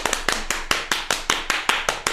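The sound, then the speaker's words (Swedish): One person claps alone in a steady, evenly spaced series of sharp hand claps as a mock round of applause. The claps keep an even beat at moderate loudness, with no talk over them. “Då gör vi en applåd.”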